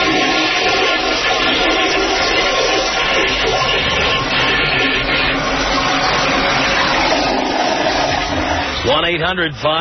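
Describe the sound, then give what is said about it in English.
A toilet flushes with a loud, steady rush of water that fills nearly ten seconds, then quickly tails off at the very end. “you want to flush me down the toilet with both of these losers? Well, if you like, here you go.”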